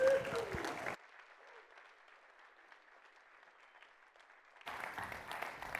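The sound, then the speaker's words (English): An audience applauds a pastor's welcome at Pinecastle: loud, dense clapping at the start drops to a faint, muffled stretch, then returns at full strength toward the end. “So if you would, put your hands together and give a warm Pinecastle welcome to Pastor Rick Van Wagner.”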